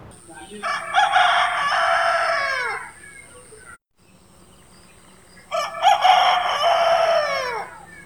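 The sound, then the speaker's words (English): A village rooster crows twice, each a long, loud cock-a-doodle-doo that rises and trails off, separated by a brief quiet gap. “in Umraid, I had the pleasure of listening to both the crowing of the village cocks, which sounds like this”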